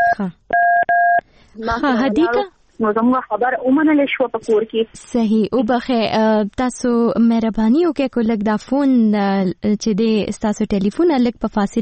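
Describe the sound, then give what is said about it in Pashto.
A brief two-tone phone keypad beep, set off when the phone touches the caller's ear during a call, sounds once near the start before steady talking carries on over the rest. “فکر کوم هغه په منځ کې چې ولګي کنه د غوږ سره نو هغه نمبر ډایل کیږي”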